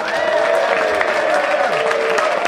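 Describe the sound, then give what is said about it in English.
A comedy audience applauds as comedian Richard Herring is welcomed. The clapping is steady, dense and loud, and it carries on unbroken from start to finish. “It would mean more if I hadn't done a special sign to make you applaud. But I'm sure you'd have done it anyway.”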